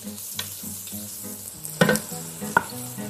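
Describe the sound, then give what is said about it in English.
Garlic sizzles steadily in a hot pan with a soft, constant crackle. Two sharp clinking scrapes from the stirring cut through it. “Add the garlic, give it a nice stir. You want to cook it for about 1-2 minutes until it's nice and fragrant.”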